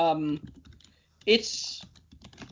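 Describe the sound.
Typing on a computer keyboard while searching online for a card, with quick clicking keystrokes mixed in with a person talking.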